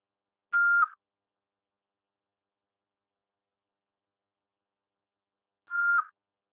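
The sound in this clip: Voicemail beep tone: two short, mid-pitched electronic beeps, each lasting about a third of a second, separated by a long stretch of silence.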